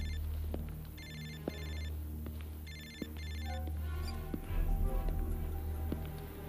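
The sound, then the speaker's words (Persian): A telephone rings during a class, its bright electronic tone coming in two paired bursts of ringing, separated by a short pause, over a low steady background hum. “دکتر گرام، تلفنتون داره زنگ میخوره.”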